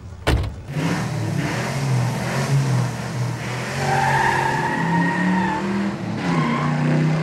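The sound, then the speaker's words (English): A Corvette sports car accelerates and drives off, its engine roaring loud and continuous, with the pitch of the engine climbing as it speeds up. “Nice Corvette. Hi. Let's go for a ride. Sure, hop in. Let's go for a ride.”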